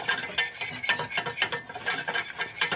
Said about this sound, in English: Now, I always start whisking my roux with a whisk